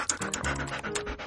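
A dog on a leash pants in an audio drama scene, producing quick, rhythmic breathy puffs with a slight rasp, repeating steadily through the short moment.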